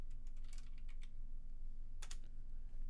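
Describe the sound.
Faint keystrokes on a computer keyboard: a quick cluster of light clicks, a pause, then a short burst of a few more, over a steady low hum.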